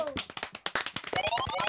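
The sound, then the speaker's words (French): Dense clapping from an audience applauding itself at a yearly event, with many rapid overlapping claps and a rising whistle-like tone toward the end. “Donc merci, vous pouvez vraiment vous applaudir. Bravo à vous, bravo à tous.”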